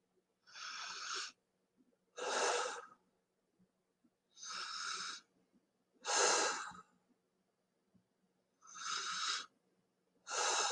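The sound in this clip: Slow, deep breathing during meditation: six long, soft breaths spaced evenly apart with near-silent pauses between them, faint and unhurried.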